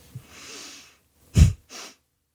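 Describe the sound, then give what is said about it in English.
A person breathing into a microphone during a breathing demonstration: a long, soft inhale, then a short, forceful snort-like burst of breath and a softer breath right after. “I'm going to demonstrate it into the microphone, just in case you're wondering what the audio is here. Okay, I'm going to take a deep breath in.”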